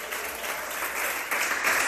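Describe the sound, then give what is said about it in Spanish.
A church audience applauds the Lord: thick, continuous clapping from many hands that grows a little louder toward the end. “Denle un aplauso al Señor en esta hora. A su nombre.”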